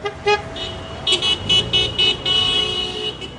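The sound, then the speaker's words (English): Car horns honk in support of a Wednesday-night honk-and-wave street protest against the Iraq war in Seattle's Ballard neighborhood. Many toots of varying length, some short and some held, sound over steady traffic noise. “Every Wednesday night, a group of about 50 people in the Ballard neighborhood of Seattle have their own honk and wave protest against war in Iraq.”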